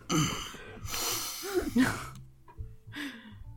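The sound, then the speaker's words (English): Deep, calming breaths: a few long, loud breathy inhales and exhales with a voiced, sigh-like tone. Short pauses separate them. “I'm going to take a couple of, like, deep calming breaths”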